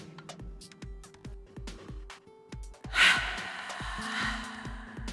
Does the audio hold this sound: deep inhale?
yes